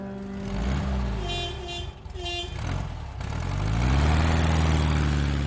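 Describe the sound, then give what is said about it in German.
A Volkswagen Beetle car engine drones loudly and steadily, then revs up in the second half with clearly rising pitch as the car drives off. “Mit dem VW Käfer von Frau Schön haben wir einen Betriebsausflug in den Berliner Tiergarten”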